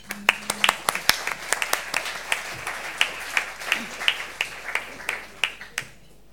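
Audience applause welcomes an author to the stage at the Foreign Correspondents Club in Hong Kong: many sharp, irregular hand claps, fairly soft, thinning out toward the end, with no talk over them.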